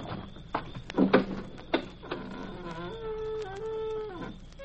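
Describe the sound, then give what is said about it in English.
A gate being opened: a few knocking clunks, then a long squeaking creak that holds steady before stopping. “How do you get into one of these places? I'll just open the gate”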